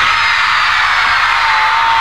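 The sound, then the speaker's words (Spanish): Girls in a show audience scream together in a dense, high-pitched wall of shrieks that stays loud and unbroken throughout. “A ver el grito de las chicas.”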